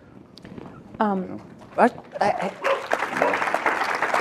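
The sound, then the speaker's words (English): A pet dog barks and yelps a few times in short loud bursts while people talk nearby. “That's our dog.”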